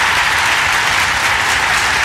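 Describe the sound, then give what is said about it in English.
A loud round of applause, dense and even, a continuous wash of many hands clapping that holds steady from start to finish. “Got to give him a round of applause, man, I tell you.”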